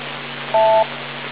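A single telephone keypad beep rings out, short, steady and mid-pitched, over a constant hiss and low hum.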